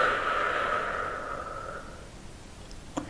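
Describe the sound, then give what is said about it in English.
A soft, slow exhale during a guided breathing exercise, quiet and airy, fading gradually over about two seconds, followed by a faint click near the end. “Breathe in. Breathe out.”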